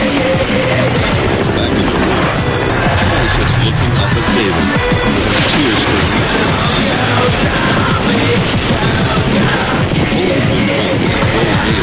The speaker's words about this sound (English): Outside, helicopters move over the city.